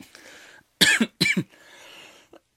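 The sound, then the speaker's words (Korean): Sharp coughing from a person who choked while talking, in two loud clusters with fainter throat and breath sounds before and after, with no speech. “아, 죄송합니다. 아, 제가 방구 얘기하다 사례가 들렸어요, 지금.”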